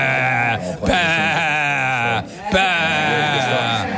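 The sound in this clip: A person imitates a goat's bleat in a few drawn-out, wavering, nasal cries with a strong quivering vibrato, loud and with only brief breaks between them.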